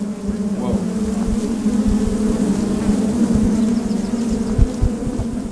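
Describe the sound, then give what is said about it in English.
Honeybees buzzing inside an opened hive, a dense, loud, steady drone that holds throughout, with scattered low bumps underneath. “Then we opened up the hive to get a little more activity going.”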